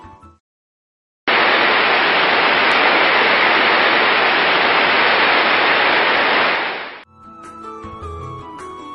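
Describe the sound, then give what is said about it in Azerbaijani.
Loud, steady roar of strong rushing water from waterfalls and rivers in a frog habitat in China, a dense, unbroken hiss lasting about six seconds, with other sounds briefly before and after. “Çin qurbağaları Çində şəlalələr və çaylar əhatə olunmuş bir bölgədə yaşayan, nadir görülən bir qurbağa növüdür. Bu qurbağaların yaşadığı bölgələrə güclü su səsi hakimdir.”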